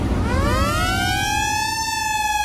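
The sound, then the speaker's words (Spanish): A siren sound effect sweeps quickly upward in pitch and then holds a loud, steady wail, heard alone without voices. “La sirena anuncia de que el fin de semana ya comenzó en tu radio.”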